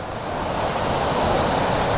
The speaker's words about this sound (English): Hey, that's the waterfall.